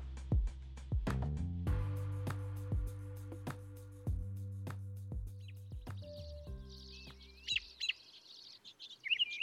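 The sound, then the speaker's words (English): A robin sings in spring, its bright, high chirping phrases entering near the end. Before them come low, sustained musical notes with plucked attacks, which fade out as the birdsong takes over. “That sound you're hearing is spring beginning. The song of the robin.”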